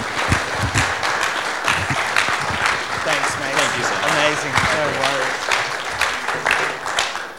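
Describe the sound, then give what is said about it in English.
A church audience applauds to welcome a speaker to the stage at a Sunday service, with dense, steady clapping through the whole stretch and some voices mixed into it. “So, church, can we put our hands together and welcome Rob Pike as he comes to speak?”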